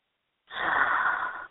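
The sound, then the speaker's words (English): A deep inhale during a guided meditation, one steady, airy breath drawn in for about a second, alone after a brief silence. “Let's take a deep breath and just to release any tensions, any anxiety, anything that might be going on in your life, only in mine. So inhale.”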